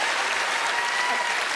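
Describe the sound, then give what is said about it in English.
An audience gives a special guest a round of applause, dense and sustained, with many hands clapping at a steady, even loudness across the whole stretch. “I'd like you to put your hands together and give a massive round of applause to Phil from Big Fun!”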